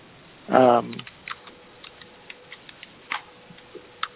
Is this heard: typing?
yes